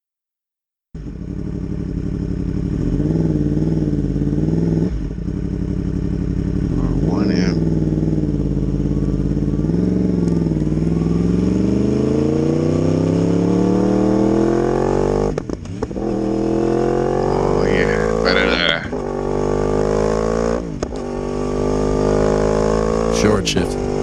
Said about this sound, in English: And now one of our favorites, the oddity in the inline fours, the cross-plane crank, glorious sounding R1M with guess what kind of exhaust?